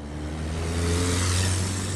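Traffic rumbling at the busy intersection of Gallows Road and Lee Highway in suburban Northern Virginia: a continuous engine drone with low tonal hum that swells slightly as a vehicle accelerates partway through.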